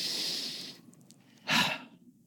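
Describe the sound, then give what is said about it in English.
A deep breath taken as a pause in a reflective talk: two soft, airy breath sounds, a longer steady rush and then, after a quiet gap, a shorter and stronger puff, with no speech. “Let's take a breath.”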